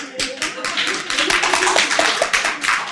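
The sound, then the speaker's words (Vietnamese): Audience clapping hands, a dense run of many quick irregular claps throughout, with voices mixed in beneath the applause. “Bạn vỗ tay lớn chút xíu nữa, vỗ tay lớn cao nữa.”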